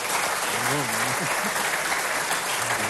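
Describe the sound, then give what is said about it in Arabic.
An audience applauds to welcome a guest, a former member of parliament. The clapping is dense and steady throughout, and a faint voice is briefly heard near the start. “بنكون زقفوا له استاذ حكمة.”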